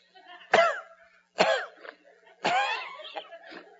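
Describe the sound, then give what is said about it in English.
Harsh coughing and throat clearing from a person with something caught in the throat: three loud, raspy bursts, each followed by quieter rough clearing sounds, alone without speech. “I'm trying to get this bug out of my throat.”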